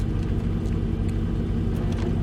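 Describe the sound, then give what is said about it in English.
Low, steady engine rumble of a truck being moved, a continuous deep drone at moderate level with faint rougher pulses and no speech. “It's okay out there. They're just moving the truck.”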